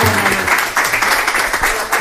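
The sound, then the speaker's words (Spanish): An audience breaks into applause, dense continuous clapping that stays loud and even for about two seconds. “¡un aplauso!”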